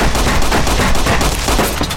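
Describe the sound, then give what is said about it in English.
Dense, rapid gunfire from the video game Fallout: New Vegas, with loud overlapping shots in a continuous barrage lasting about two seconds and no talk over it. “Alright, this guy's hitting me with a lot of bullets. I don't appreciate that very much.”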